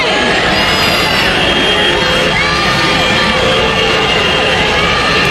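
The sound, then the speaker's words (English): A loud crowd of protesters outside the Tennessee state legislature after the passing of a new voter map: a continuous, dense roar of many voices that holds steady throughout. “That's the sound of a crowd of protesters outside the Tennessee state legislature after they passed a new state voter map.”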